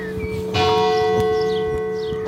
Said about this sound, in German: 9 Uhr läuten die Glocken von St. Marinus und Anianus.